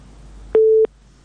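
A telephone busy tone after a caller's line drops during a phone-in: a single steady, mid-pitched beep lasting about a third of a second over a faint low hum.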